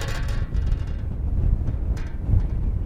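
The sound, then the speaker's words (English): Wind blowing against an aluminum sign by a Nevada roadside, a low, gusty roar that stays loud throughout with a few swelling buffets. “Wind blows against an aluminum sign.”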